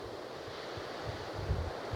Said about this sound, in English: The wind is blowing very strongly.